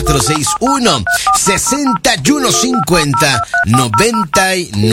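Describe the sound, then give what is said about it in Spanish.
Telephone keypad dialing tones as a number is dialed to a phone booth: many short dual-pitched beeps in quick succession, running alongside a voice that talks throughout. “¿Tú me quieres marcar a la cabina? Bueno, márcale”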